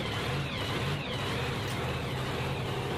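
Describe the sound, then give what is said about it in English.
Roar of a fuel altered drag racing car, a dense, loud, unbroken wash of engine noise that holds steady for the whole stretch without any gaps. “She likes drag racing, believe it or not. Top alcohol? Yeah, it's got to be alcohol. Actually, it's a fuel alter.”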